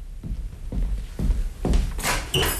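A door is opened after a few dull, low thuds; brighter clicks and a scrape follow near the end.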